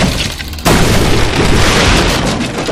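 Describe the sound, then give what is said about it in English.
A crate-like door is struck in a video game, making a heavy booming impact: an abrupt loud hit that swells into a dense, sustained rumbling crash. “The door sound you're hearing off to the right, that's a door.”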